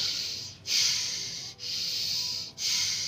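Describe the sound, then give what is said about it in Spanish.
Slow breathing through the nose during a meditation exercise, a soft, steady airy hiss in a few long breaths separated by brief pauses, with no talk. “Solo respira por la nariz, ¿vale? Así.”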